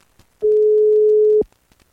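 Ringback tone of an outgoing telephone call: one steady, mid-pitched tone lasting about a second, loud and alone, starting and stopping abruptly.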